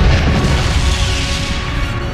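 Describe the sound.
Starship weapons fire and an explosion in a science-fiction space battle, a loud sustained low boom with a broad roaring rumble that eases slightly toward the end.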